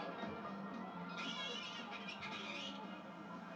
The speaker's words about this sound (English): Again with this fucking cat.